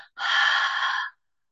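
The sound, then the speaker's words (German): A single audible exhale through the open mouth during a guided breathing exercise: a steady, breathy rush lasting about a second, preceded by a brief, fainter breath. “Dann öffne deinen Mund und atme hörbar Müdigkeit aus.”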